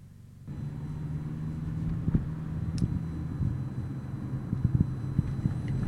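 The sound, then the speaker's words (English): A car drives along Richmond Street West through city streets, a steady low engine and road rumble with a few faint knocks and bumps and no talk. “I'm just driving through Richmond. Richmond Street West.”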